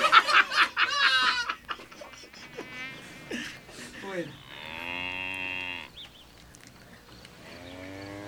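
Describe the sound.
A bull moos while grazing on a plain: a long, drawn-out, harmonic lowing call that follows an earlier stretch of buzzy, fly-like sound and ends in quieter low rumbling.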